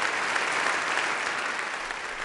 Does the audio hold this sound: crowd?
yes